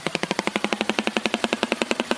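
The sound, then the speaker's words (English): A prehistoric, dinosaur-looking papyrus bird in Uganda gives its machine-gun-like call: a rapid, perfectly steady train of many sharp, dry clattering pulses, fairly loud and alone. “Uganda offers one of the best opportunities to see this prehistoric dinosaur-looking bird. It's awkward-looking, but yet very intriguing to look at, and it sounds just like a machine gun.”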